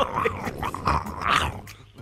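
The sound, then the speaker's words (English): A human voice imitates the noise of koala bears mating, producing rough, throaty growls and grunts in a few short bursts that rise and fall over about two seconds. “Just two koala bears just going at it. Can you do the noise for me one more time?”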